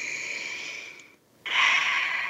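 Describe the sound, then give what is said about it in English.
A person takes a deep breath: two airy, rushing breath sounds separated by a short pause, the second louder and fuller than the first. “And as we do that, I want you to take a breath.”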